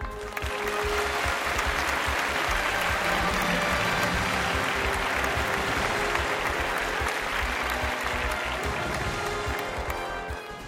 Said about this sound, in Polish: Powitajmy go gorącymi brawami.